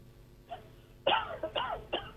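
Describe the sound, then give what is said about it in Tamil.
A caller coughs over a phone line: one faint cough, then three harsher, louder bursts spaced close together, with a thin, narrowband telephone tone and no speech. “வாங்க, இருமல்லாம் முடிச்சுட்டு வாங்க.”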